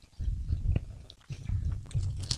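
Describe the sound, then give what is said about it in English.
Crunchy bites into a buttery malt cracker with a sugar glaze, a few crisp crackling snaps followed by chewing, faint and close. “It's a malt cracker. Buttery malt cracker with perfect snap.”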